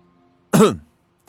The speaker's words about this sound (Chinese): 老师清清嗓子